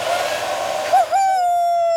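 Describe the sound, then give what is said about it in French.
A hair dryer at the barber's runs with a steady whirring hiss and a high whine that wavers briefly, then settles into a constant tone. “Le coiffeur ouvre un tiroir à côté du miroir pour prendre le sèche-cheveux.”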